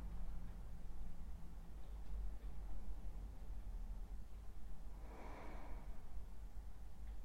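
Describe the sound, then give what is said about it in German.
A conscious breath comes as a single soft, airy breath through the nose in the second half, faint over a quiet low background hum. “Noch ein paar bewusste Atemzüge.”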